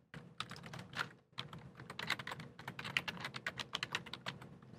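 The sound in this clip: Fingers type on a computer keyboard in rapid bursts of crisp clicking keystrokes. The typing pauses briefly near the start, then continues in a quick, uneven rhythm.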